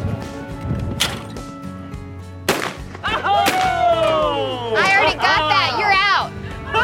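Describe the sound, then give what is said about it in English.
Gunshots ring out during target shooting in a knockout game, with a few sharp, loud cracks spaced apart and people's voices and shouts between and over them. “Get your gun and start shooting.”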